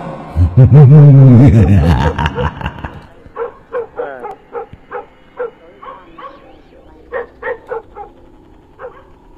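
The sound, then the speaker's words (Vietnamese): A dog barks fiercely at night: a loud, drawn-out whining cry opens, then gives way to many short, sharp barks in an uneven series that grows slightly fainter. “kèm theo đó là tiếng con vẹn nó sủa lên dữ tợn, lồng lộng cả lên.”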